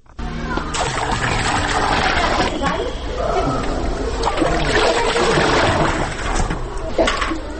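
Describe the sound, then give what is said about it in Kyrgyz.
Cold water splashing as kindergarten children outdoors pour small buckets of it over their own heads, a dense, continuous splatter and slosh with voices mixed in. “Анан эле суу куюлган кичинекей чакаларды ала коюшуп, ар кимиси өзүнүн башынан ылдый муздак сууну куюп жиберишти.”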